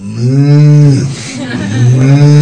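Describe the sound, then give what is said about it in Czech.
Cows moo at milking time, when their udders are full. Two loud, low, drawn-out moos follow close on each other. “Milking time. Krávy přijdou a sami řeknou, čas na dojení.”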